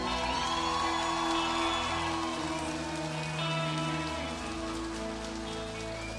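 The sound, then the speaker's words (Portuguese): Steady applause from an audience giving a round of applause for Porto do Sol at a live event, a dense, continuous patter that stays fairly loud for the whole stretch. “Então eu queria que vocês todos dessem uma salva de palmas para Porto do Sol.”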